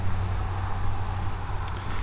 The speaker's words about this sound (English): There's a lot of traffic today on West Maple Road